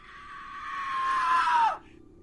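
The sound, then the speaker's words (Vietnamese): A horrible, wild scream in the night: one long, loud, sustained shriek lasting under two seconds that drops sharply in pitch as it cuts off. “Một tiếng hét kinh khủng vang lên trong đêm. Tiếng hét man dợ, vang vọng, vô cùng kinh hãi.”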